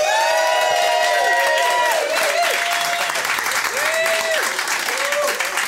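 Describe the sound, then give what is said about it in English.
An audience claps and cheers at a live show, with thick, sustained applause, scattered whoops and thin whistling tones threaded through it. “So the big round of applause for Sharon Mannion and Paul Twilight.”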